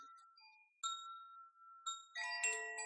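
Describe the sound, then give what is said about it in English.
Chimes once sold as Shanti chimes ring out in several soft, bell-like struck tones that overlap and hang in long, slowly fading notes, with a denser cluster of bright tones near the end. “They used to be called Shanti chimes, and they're called something different now.”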